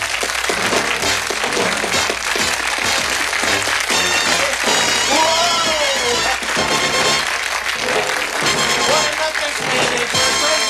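Loud audience applause greets a comedian as he comes on, forming a dense, unbroken roar that runs for about eleven seconds without pause.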